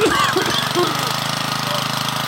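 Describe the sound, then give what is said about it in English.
An old machine is cranked to start, giving a sputtering, knocking, engine-like rumble of fast, even pulses. A brief whine runs through the first second. “yank out the old machine, give her a crank”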